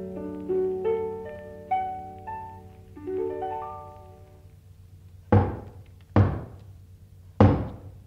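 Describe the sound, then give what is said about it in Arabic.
Three heavy knocks pound on a door, loud and evenly spaced with sharp attacks, after a short run of plucked melodic tones that fades out before the knocking begins. “خبطة عالي وما يفتح حنيشة.”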